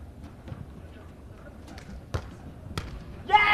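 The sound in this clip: Volleyball being served by Qingdao team 2's number 2 player at the start of a set, heard as two sharp ball thumps over low background noise, followed by a brief burst of noise at the very end.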